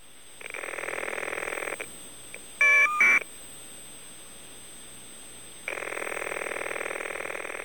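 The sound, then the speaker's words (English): Telephone ringing on an old step-by-step exchange line with caller ID data: a long buzzy ring, then a short burst of warbling data tones, then a quiet gap before a second long buzzy ring that runs to the end. “Okay, that was the number being sent, and that is the sound of the ring. That is what your phone actually sounds like.”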